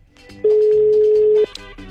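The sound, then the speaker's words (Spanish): A telephone tone while placing a call: one loud, steady, mid-pitched tone lasting about a second, followed by faint clicks. “Ahí está la llamada. Vamos a marcar entonces.”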